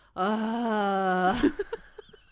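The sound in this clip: A voice imitating the wailing noises of labour breathing: one long, steady low moan that breaks off into a few short, breathy gasps.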